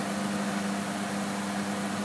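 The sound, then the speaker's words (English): A washing machine spins a full load of towels smoothly, without vibrating and not yet at full spin speed, producing a steady, even whirring hum with a faint tonal note and broad noise throughout. “Holy crap, that is not even vibrating. I've got a full load of towels in this thing, guys. Seriously, that is full.”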